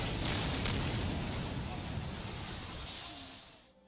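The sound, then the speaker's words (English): Artillery guns firing near the Cambodian border: a broad, rumbling roar that rolls on for a few seconds and gradually fades away. “These guns are firing now about 15, 20 miles up the road towards the Cambodian border.”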